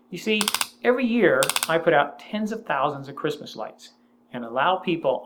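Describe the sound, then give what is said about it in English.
A broken X10 SuperSocket home-automation unit gives off two short bursts of rapid mechanical clicking in the background, over a faint steady hum, while a person talks throughout. “that noise you're hearing in the background is a broken X10 super socket.”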